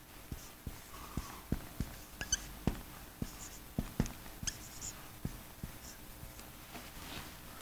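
Writing on a board: faint, rhythmic tapping and scratching strokes, many short marks in quick succession with little else around them.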